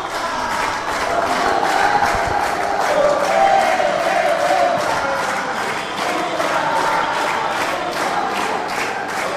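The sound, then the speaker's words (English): A large crowd of Brazilian delegates cheering for Lula at the World Social Forum in a seaside conference center in Dakar, Senegal: loud, sustained cheering and shouting with regular pulsing swells. “the speech by Lula was the most expected and most cheered. About half of the room was full of Brazilian delegates who kept on cheering for Lula.”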